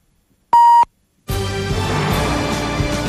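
A single steady, high electronic beep from a Polish radio station's time signal marking half past seven, sounding once for a fraction of a second; after a brief silence a dense, continuous sound follows.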